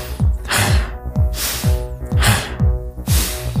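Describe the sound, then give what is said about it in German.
Rapid, forceful hyperventilating breaths during a breathwork session, drawn in through the nose and pushed out through the mouth. Loud rushing breath bursts repeat quickly over a steady thumping music beat. “Ich atme viel, viel schneller ein und aus, als ich das normalerweise tue. Ich hyperventiliere”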